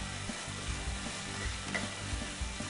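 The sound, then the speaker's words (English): Minced shallot and garlic fry in bacon grease, giving a steady, crackling sizzle broken by soft scraping stirs, with no talk. “Minced shallot and some garlic. Use that bacon grease. Instead of adding like olive oil or butter, the bacon has obviously a lot of flavor, so we're gonna infuse it throughout.”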